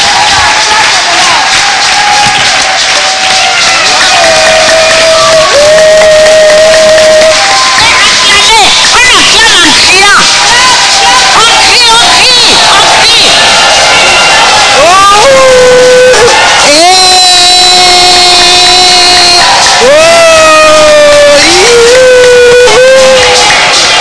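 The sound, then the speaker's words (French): A crowd cheers and acclaims during an Alleluia worship gathering. Loud, continuous crowd noise runs throughout, with shouted voices rising and sliding in pitch as calls ring out, and more bursts of acclaim come in the later part. “Alléluia. Acclamons-le.”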